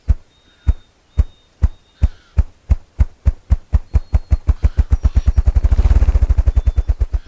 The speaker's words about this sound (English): You can take a peek at a ruffed grouse and hear his drumming again